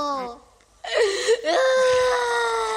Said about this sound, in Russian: Обревелся ребенок